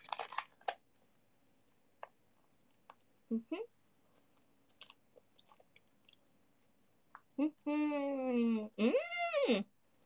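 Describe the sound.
Soft, moist chewing of udon noodles, made up of faint scattered clicks and squishes over near silence. A short, sharp bite comes partway through, and a few murmured vocal sounds follow near the end.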